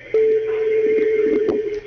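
Telephone line tone as an incoming radio call-in connects, a steady mid-pitched tone sustained for nearly two seconds over faint crackly line noise.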